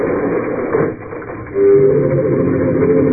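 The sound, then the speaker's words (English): An elevator descending slowly, heard as a loud, band-limited mechanical rumble. It dips briefly, then swells into a steadier, louder hum with a sustained whining tone. “elevator headed downstairs at considerably less than the speed of light”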